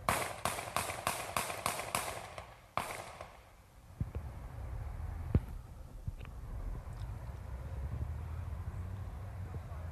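Gunshots from a played video of a police officer shooting a man stopped over a broken taillight: a rapid burst of sharp, loud cracks, then one more after a short pause, followed by faint knocks and a low rumble.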